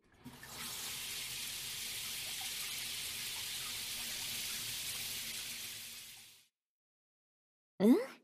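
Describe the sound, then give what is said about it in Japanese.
Warm water runs to rinse shampoo out of hair, a steady, bright hiss of flowing water lasting about six seconds. It stops abruptly, and a quiet pause follows. “はーい、シャンプーはおしまい。お湯で流すから目を閉じてくれる？”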